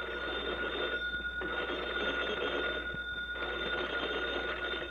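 A telephone bell rings in a small-town volunteer fire brigade's firehouse, signalling that a fire has been reported. The ringing is loud, steady and continuous, with no talk.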